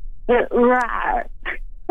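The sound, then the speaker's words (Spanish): A voice imitates a lion cub waking up, giving a strained, groaning growl that slides downward in pitch, then breaks off before one short, rough grunt. “Es un león como que... Como que tuvo tos. Como que se está despertando, ¿no? Como un leoncito, como león bebé, como Simba, cuando se está despertando.”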